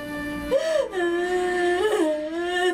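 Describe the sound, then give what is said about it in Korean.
A child cries in a wavering, tonal wail, the pitch rising and falling near the start and swelling again later, held steady at moderate loudness throughout with no talk over it. “아이 우는 소리 같은데?”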